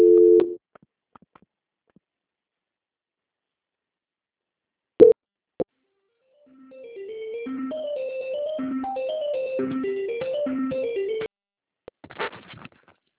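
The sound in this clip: Telephone line sounds during a call transfer: a short tone, a long silence, then a couple of sharp clicks. An electronic melody of stepping beeps follows and plays for several seconds, then a brief burst of noise.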